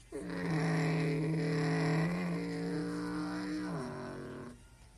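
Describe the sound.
A NASCAR Xfinity Series stock race car accelerates into a corner at the Go Bowling 250. Its engine makes a loud, steady harmonic drone that dips in pitch near the end, then fades out.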